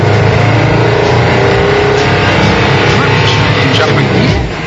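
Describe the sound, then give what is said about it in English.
A prototype compressed-air car, built lightweight, pulls away as the clutch is let out, giving a loud, steady, dense rushing roar that runs unbroken for the whole clip. “The key to an air car is to keep everything lightweight so you get the best possible mileage. Let's give it a go. Clutch out. Hey, it's working.”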